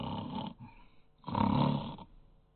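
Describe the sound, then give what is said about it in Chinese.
A storyteller's voice imitates snoring to depict exhausted troops falling asleep in Qilin Valley: a few rasping, drawn-out snores with a quieter stretch between them, the last the longest and loudest. “没多长时间就听见鼾声四起呀”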